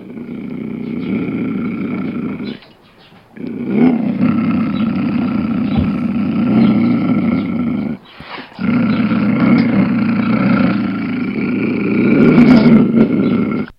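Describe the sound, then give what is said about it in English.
A mountain lion, or cougar, roars and growls in long, loud, rough bouts: three sustained stretches, each broken by a short pause, with no voices present. “that's the sound of a mountain lion or cougar, also native to where we live, not too far away”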